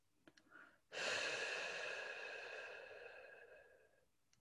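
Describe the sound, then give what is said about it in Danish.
Breathing: a faint, short intake through the nose, then one long, loud exhale through the mouth that holds steady and slowly fades over about three seconds, alone with no talk. “Og træk vejret fuldt ind gennem næsen. Og en udånding gennem munden.”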